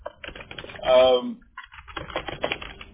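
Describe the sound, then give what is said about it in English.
Typing on a computer keyboard: many quick, light key clicks in an uneven patter, broken by a brief voiced sound and a short pause before the tapping resumes. “I'm typing everything you're telling me. So I have a note on it. I'm typing it right now.”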